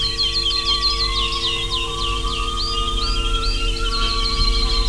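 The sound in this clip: A nightingale sings at night among pomegranate trees, its quick high chirps and trills coming thickly at first and then thinning out, all over a steady low drone.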